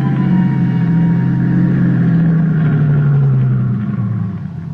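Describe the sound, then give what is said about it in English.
A car driving up a mountain road, its engine a steady, loud, low drone that continues throughout and eases off slightly at the very end. “There was only one way to check it out. Drive up to Primrose Camp.”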